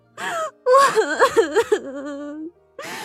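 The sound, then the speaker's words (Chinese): A woman crying, with breathy gasps and wavering, sobbing wails that rise and fall in pitch, broken by short pauses. “别哭了姐”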